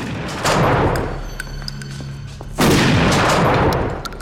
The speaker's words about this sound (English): He quickly picks up his gun and shoots the two men on the floor.